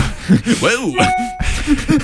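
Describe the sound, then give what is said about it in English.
A short notification chime sounds as a brief steady ding with two tones, rising amid lively, animated talking voices that come before and after it. “Notification”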